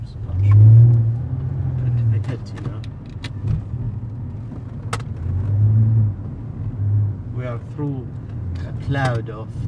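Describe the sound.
A car drives through a tear gas cloud during street riots, its engine a low, steady rumble that swells and eases while people talk over it.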